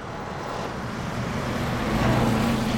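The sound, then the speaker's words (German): An old blue-and-white minibus rushing past makes a steady engine and road rumble that grows slightly louder and fuller. “Plötzlich rauscht ein blau-weißer, etwas in die Jahre gekommener Minibus an der Gruppe vorbei, bremst abrupt, legt den Rückwärtsgang ein, setzt zurück und kommt direkt vor ihnen zum Stehen.”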